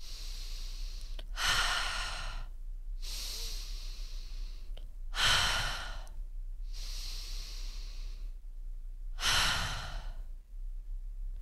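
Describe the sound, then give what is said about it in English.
A person takes three slow, deep breaths. Each has a long airy phase followed by a stronger, louder rush of breath, evenly spaced in a calm, unhurried rhythm against a quiet background, with no talking. “Bring you in this moment, being present, taking a few breaths. If you take three deep breaths,”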